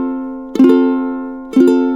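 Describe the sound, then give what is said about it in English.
An F major chord is struck twice, about a second apart, each attack bright and percussive and then ringing on as a steady, slowly fading tone. “What about an F chord? We play this chord all the time.”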